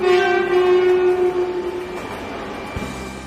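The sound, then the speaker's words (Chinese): A high-speed train running, heard aboard: a steady loud rumble with a sustained tonal whine that fades gradually, followed by a low thump near the end. “高铁上”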